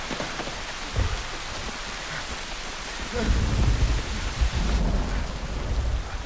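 Pouring rain beats down on dirt and turns it to mud as a dense, steady hiss. Low thunder rumbles beneath it, and the downpour grows heavier in the second half. No voices are heard.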